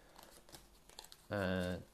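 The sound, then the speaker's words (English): Cards being shuffled into the exploration deck during a board game, giving faint, soft rustling and riffling. “I need to shuffle them into the exploration deck, which is still pretty loaded.”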